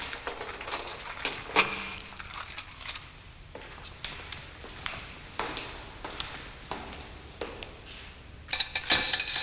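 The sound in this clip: Keys jangle faintly, with a few scattered light metallic clinks and taps over a quiet background and a brief brighter rattle near the end.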